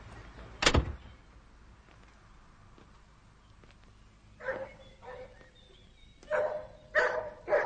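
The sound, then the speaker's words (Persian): A dog barks in short, sharp bursts: one loud sound early, then a quiet stretch before a few more barks come in quick succession toward the end. “سگ به طرف سعید می رود.”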